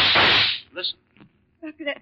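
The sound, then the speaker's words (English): A single loud, sharp gunshot crack in a radio drama has a long, hissing decay. Voices speak in short bursts after it. “that must be Chris firing that gun. Yes. Come on. Those shots came from close by.”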